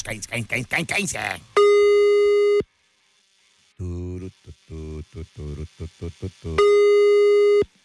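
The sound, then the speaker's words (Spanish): Telephone line tones while a call is being dialed: two long, steady electronic tones of about a second each, loud and even, with voices and clipped bursts of sound around and between them. “Ahí está. Estamos marcando.”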